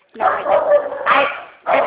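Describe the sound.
Two dogs barking at home in a few loud, harsh bursts in quick succession, the barks running together with a short gap before the last one.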